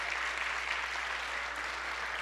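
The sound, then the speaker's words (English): Audience applause for the helpers at a bilingual community gathering: a dense, steady wash of clapping that holds at an even level for about two seconds, with no voices over it. “Let's give a round of applause to our helpers 办餐点的 Sarah 小组 Tiffany Robert, Daniel, 给他们大大掌声好吗 Give them all applause”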